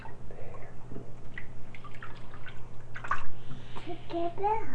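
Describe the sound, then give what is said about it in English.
Water trickles and drips as it is poured from a cup to wash a child sitting in a bathtub, soft splashes mixed with a child's babbling and talk. “Take a bath. Cup. We're gonna wash you with a cup. We're gonna wash you with a cup.”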